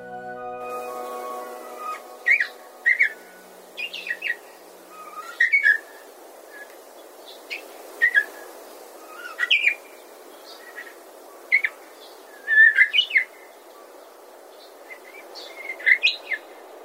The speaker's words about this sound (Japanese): おぼつかない鳴き声ですが、確かにウグイスです。